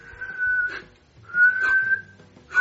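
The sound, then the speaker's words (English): A person whistles two long, steady, clear tones at a middle pitch, separated by a short pause, with a breathy hiss where each note starts and ends. “You try to teach him how to whistle.”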